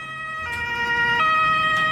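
An ambulance siren sounds as a loud, steady, high-pitched tone rich in harmonics, holding on without pause against faint vehicle noise.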